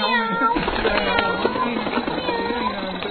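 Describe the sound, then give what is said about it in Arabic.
A voice imitates a cat meowing, repeating the meows in a steady run of drawn-out calls over a continuous, busy backdrop. “مياو مياو مياو”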